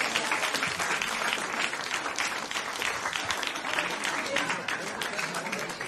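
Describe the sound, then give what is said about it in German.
Audience applause at a live stage event: dense, steady clapping from many hands that carries on evenly from start to finish without pausing. “Mach mal Applaus, mach mal Applaus.”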